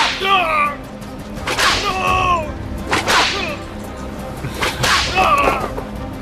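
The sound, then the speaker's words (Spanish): A whip cracks three times, each a sharp, loud snap spread out over several seconds, with voices crying out in between. “Dame ese látigo. ¿El látigo?”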